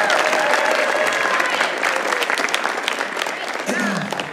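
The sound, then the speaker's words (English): A crowd applauds at a gospel gathering with dense, steady clapping throughout that eases slightly toward the end, and voices are faintly heard through it. “Can we give them one more round of applause?”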